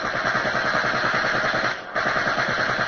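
A bomber's tail gunner fires a machine gun at an attacking Messerschmitt fighter. Loud, rapid, evenly spaced shots run in a continuous stream, broken by one brief pause before the firing resumes.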